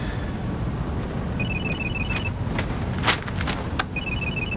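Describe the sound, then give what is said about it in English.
An incoming call rings on a phone with caller ID in a Mercedes that has just pulled away. Two bursts of electronic trilling sound over a steady road and engine rumble, with no talk. “Eleanor's caller ID tells her it's Bly.”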